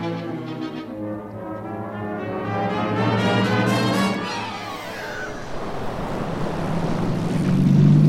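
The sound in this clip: A boat moving on water gives a steady droning rumble blended with broad rushing water noise. It swells slightly mid-way and again toward the end, with no voices.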